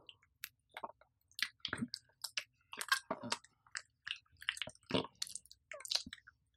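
Someone chewing food while eating: many soft, wet, irregular chewing and biting sounds with small crunches, faint overall and broken by brief pauses, with no talking.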